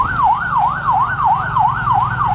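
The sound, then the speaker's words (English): An ambulance siren on a street wails in a fast, regular rise-and-fall pattern, loud and continuous over a low rumble of road noise, with no voices. “every few minutes one of those ambulances comes past us ferrying one of the injured to hospital.”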